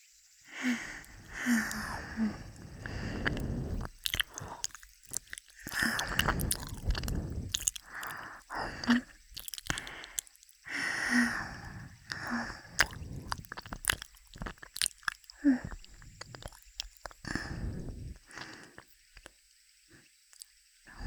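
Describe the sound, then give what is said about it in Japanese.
Wet, squishy biting and chewing noises, with the bites pressed a little harder. They come in soft, irregular bursts with quiet gaps between them, and no one speaks. “もう少し強めに噛むね。”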